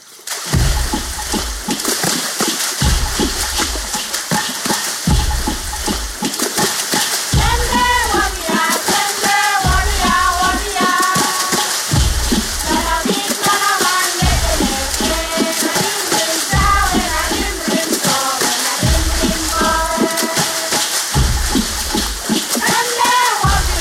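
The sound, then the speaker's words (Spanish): Women of Vanuatu drum on water, making deep, regular slapping splashes at a steady beat. Their singing voices rise over the rhythm through the middle. “Ahora nos vamos al archipiélago oceánico de las islas Vanuatu para escuchar esta música acuática, cantos y percusiones sobre el agua de las mujeres de Vanuatu.”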